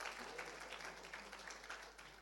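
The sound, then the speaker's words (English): An audience applauds for Jesus during a sermon. The clapping is quiet, dense and continuous, with no clear breaks from start to end. “All right, let's give a big round of applause for our Jesus.”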